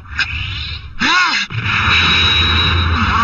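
A cartoon sound effect for a soccer ball spin shot in Supercampeones: a short swirling, whooshing burst about a second in, then a loud sustained whirring roar that carries on to the end.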